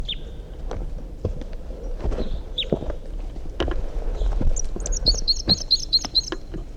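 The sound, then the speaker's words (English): Wild bird song: a few thin, high chirps come early, then a quick run of repeated high notes near the end, over soft low thumps and rustling. “No, that's a wild bird still.”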